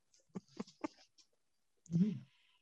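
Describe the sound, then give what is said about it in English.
A dog in a room gives one short, voiced bark or yelp near the end, after a few faint clicks. The sounds come during an online presentation. “Sorry for my dog.”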